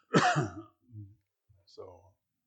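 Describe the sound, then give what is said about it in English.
A short, harsh cough bursts out loudly, followed by a couple of fainter, lower throat sounds. “not the only one that has a cough, it seems.”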